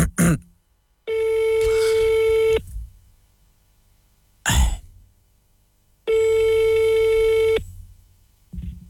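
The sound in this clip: Ringing tones of a telephone call being placed. Two long, steady, mid-pitched tones, each about a second and a half, are separated by pauses with short bursts of noise.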